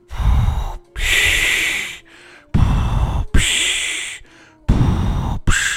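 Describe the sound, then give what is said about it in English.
A voice imitates heavy, rasping, mask-like respirator breathing, giving several loud, hoarse breaths in alternating inhale and exhale bursts with short gaps between them. “I don't want to be known as a Darth Vader breather.”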